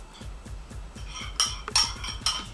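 Two eggs are beaten in a bowl in quick, rhythmic strokes, followed by a few sharper clinks of the utensil against the bowl.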